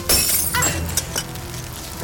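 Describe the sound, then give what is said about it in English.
Glass breaking in a dramatized rescue scene: a sharp, bright crash at the start, followed by a few scattered tinkles and clinks of shards settling. “Break that glass and use it to cut these cords.”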